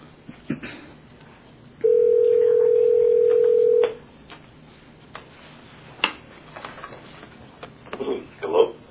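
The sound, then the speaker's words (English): A telephone conference call connecting: one steady tone held for about two seconds, followed by faint clicks and low line noise. “Mr. Bassett, this is the Oregon Government Ethics Commission. Yes, right. And I'm conferencing you in with the others.”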